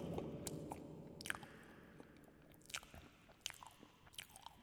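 Quiet biting and chewing of a cream puff: soft, squishy mastication with a few sharper crunchy crackles at irregular intervals, faint and with no talk.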